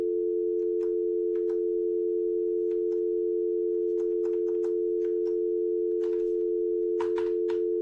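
A telephone line gives a steady, unbroken mid-pitched tone during a radio phone-in call, with faint scattered clicks and crackles over it.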